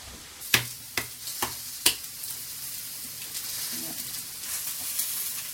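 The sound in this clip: Food frying in a pan until coloured and soft, a steady quiet sizzle with four sharp utensil knocks early on, then softer frying continuing alone.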